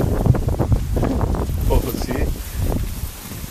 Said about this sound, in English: It's going to let the wind die down. It's going to ruin my shot.